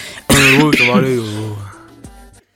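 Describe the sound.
A person chokes close to a microphone and lets out a strained, voiced, rasping cough and throat-clearing burst that trails off after about two seconds.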